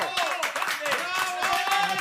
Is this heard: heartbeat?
no